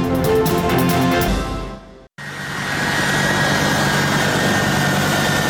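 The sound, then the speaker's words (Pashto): Loud, steady low roar of a US Air Force military aircraft engine that cuts out abruptly for a moment and then resumes at full strength, with no voices. “دا د امریکا د هوایی ځواک د هغې پوځي الوتکې غږ دی”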